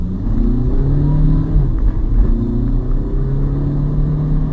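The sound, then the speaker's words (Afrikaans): A Volkswagen Caddy's 2-litre turbo diesel with a six-speed DSG automatic accelerates under half throttle, its steady droning engine tone climbing in pitch, dipping at gear changes, then rising again, loud and continuous without talk. “Selfs met die lepel halfpad weggetrap trek hierdie Caddy baie lekker.”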